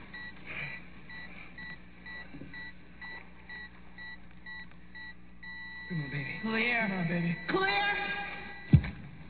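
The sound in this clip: A defibrillator charges before a shock with a climbing electronic whine over steady monitor beeps, and a sharp thud lands near the end. Urgent shouting carries over the sounds.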